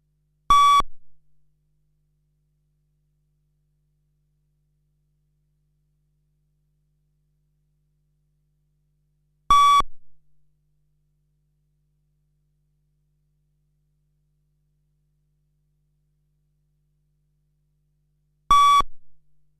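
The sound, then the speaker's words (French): Three short, identical electronic beeps pace a running fitness test, each a clear mid-pitched tone, separated by about nine seconds of silence. “Ajustez bien votre vitesse sur les bips sonores.”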